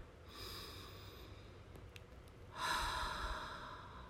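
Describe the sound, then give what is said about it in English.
Deep breathing during a guided relaxation: two long, soft, airy breaths, the second one louder and stronger than the first. “Taking three deep breaths.”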